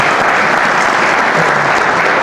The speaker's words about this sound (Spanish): Ya lo aplaudían.